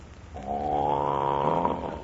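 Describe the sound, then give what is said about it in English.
One long, loud snore from a sleeping child, a rough rasping drone that swells in and holds steady before easing off. “Boy, that kid snores like a truck driver.”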